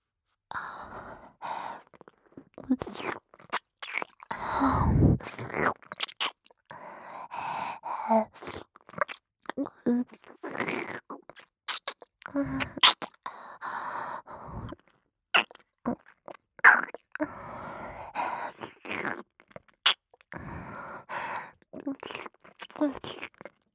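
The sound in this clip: Wet tongue and mouth sounds, licking close against the ears in an intimate ear-licking setting: many irregular soft smacks, slurps and clicks with breathy sighs between them, steady and fairly quiet throughout.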